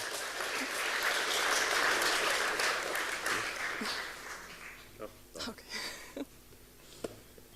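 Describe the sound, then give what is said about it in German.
Audience applause at a tech conference as a presenter is called to the stage, loud sustained clapping for about four seconds that fades out, then a man begins speaking. “Einen großen Applaus bitte für Thomas.”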